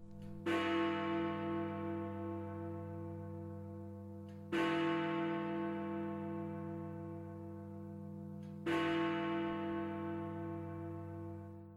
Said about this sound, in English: That is the sound of Big Ben.